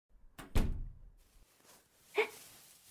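A door being closed, heard as one dull heavy thump followed a moment later by a short, sharp click, both fairly faint.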